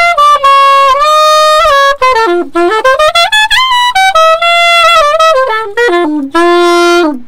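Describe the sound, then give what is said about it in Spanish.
A solo saxophone gives a jazz demonstration with loud, clear melodic phrases. Notes slide and bend, climbing through a run before settling back down, with short breaths between phrases and no accompaniment. “También, venga, a ver cómo suena el saxo.”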